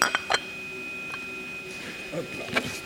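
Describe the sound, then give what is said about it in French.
Small china coffee cup turned over after drinking, giving a few light, bright clinks at the start and another brief clink near the end, with quiet handling between. “T'as fini ton café, on va retourner la tasse.”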